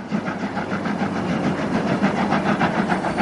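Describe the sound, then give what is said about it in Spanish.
Train locomotive sound effect: a loud, steady engine rumble with a rapid, regular chugging pulse running throughout, with no voices. “La locomotora sigue avanzando.”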